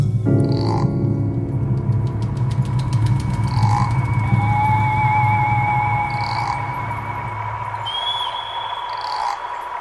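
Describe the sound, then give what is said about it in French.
A thick chorus of frogs croaks in low, throbbing pulses, with bird cries that rise and fall in higher whistling calls. The sound is steady and loud throughout. “quand vous avez entendu ces cris d'oiseaux, ces croassements de grenouilles”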